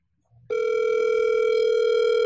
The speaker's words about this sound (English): Do you hear the ring? We're waiting on the answer.